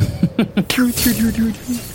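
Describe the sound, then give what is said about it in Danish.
A small stone skips across frozen lake ice, giving a rapid run of short, bright chirping tones and one sharp crack early on, all in close succession. “Jeg prøver lige at tage en sten, en lille sten, hvis der er det et eller andet sted, og så sådan ligesom slå smut hen af isen, ude på isen.”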